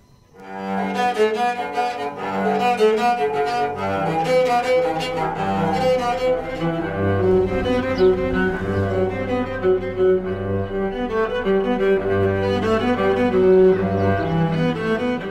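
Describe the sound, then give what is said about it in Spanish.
A homemade cello is played, built from an oil can and discarded scrap wood, with tuning pegs made from an old meat tenderizer and a gnocchi board. It gives a continuous melody of sustained bowed notes with low, resonant tones and no voices. “Este chelo está hecho de una lata de aceite, la madera tirada en la basura y las clavijas son de una vieja cuchara para golpear la carne y para hacer el ñoquis. Y suena así.”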